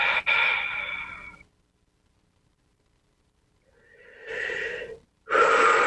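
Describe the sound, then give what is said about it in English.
Deep breathing during a guided meditation: a long, airy breath sounds first, then a stretch of near silence, then a slow audible inhale, and another breath begins just before the end, with no talking. “Nice deep breath.”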